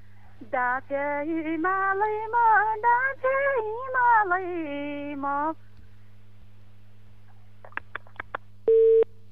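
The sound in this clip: A voice singing a Deuda folk song over a phone line breaks off, leaving silence. A few faint clicks follow, then a short, loud, steady beep of the line tone after the call drops.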